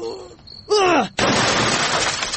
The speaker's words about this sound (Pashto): والا که چه تیه تلویزون دی مات که